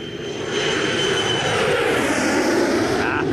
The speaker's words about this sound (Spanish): Ya, se fue Volaris. Ya despegó.